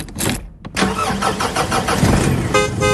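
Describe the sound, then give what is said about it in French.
A mobile bar truck's engine cranks and starts after a brief pause, then runs on with a steady, loud mechanical rumble and roar to the end. “Ça, c'est le bruit du bar de Rémi Delavenne. C'est un bar qui n'est pas comme les autres, c'est un bar unique, le Peps Bar Truck.”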